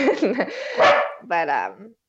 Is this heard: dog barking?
yes